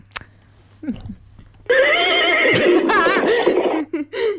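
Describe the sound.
A person imitates a horse neigh with their voice, a loud, high, wavering whinny lasting about two seconds, followed by a short breathy tail.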